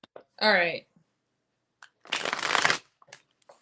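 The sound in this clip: Tarot cards being shuffled for a reading make one short, dense riffling burst lasting under a second, with a brief voiced sound before it.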